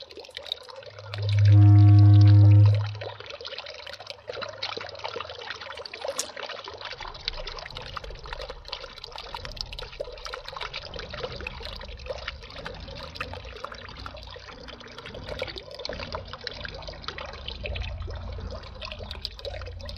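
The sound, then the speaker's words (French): Water flowing steadily in a canal in Toulouse, France, a continuous even hiss and trickle that runs unbroken throughout, with a brief loud low rumble near the start. “En plus de l'eau que vous entendez couler”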